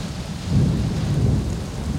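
Rainy-season storm over a village, with thunder and rain: a deep rolling rumble of thunder swells through the middle over the steady hiss of falling rain.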